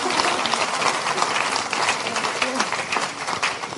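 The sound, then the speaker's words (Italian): Audience applause for author Nora Bussigny at a book presentation, a dense, sustained patter of many hands clapping at a steady level for several seconds. “lei è Nora Bussigny, alla quale farei un applauso”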